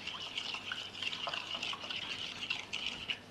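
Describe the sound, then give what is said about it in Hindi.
Soy sauce and other ingredients being poured into a fish marinade, heard as a steady, hissy trickle of liquid with small splashy flickers throughout and no talking. “इसमें soya sauce और बाकी चीज़ें भी इसमें हम डाल देते हैं, वरना मैंने सोचा था मैं फ़िश के ऊपर डालूं, लेकिन चले मैं इसी में ही डाल देती हूँ।”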